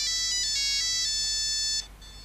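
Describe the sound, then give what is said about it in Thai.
A telephone ringtone plays a bright electronic melody of layered tones, steady and fairly loud with no talk over it, then cuts off abruptly near the end. “ผู้ใดโทรมาเนาะ”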